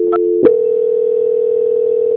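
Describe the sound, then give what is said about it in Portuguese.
A telephone line tone plays while a bank call is being transferred. Two short higher beeps come near the start, and a steady, unbroken mid-pitched tone holds alone to the end. “peço que o senhor aguarde em linha que eu vou transferir o contato para o controle de qualidade do Santander”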